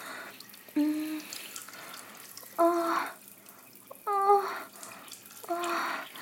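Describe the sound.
Water in a bath comes in four short, separate bursts of pouring and gurgling. Each has a bright, ringing tonal quality and is split from the next by quieter gaps over a faint background hiss.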